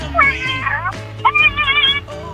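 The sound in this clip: A person imitates a cat's meow over a telephone line, giving two drawn-out, wavering meows with a narrow, phone-like tone and a short pause between them.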